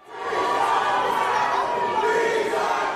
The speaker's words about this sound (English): That's part of the chaos at LA's city council meeting yesterday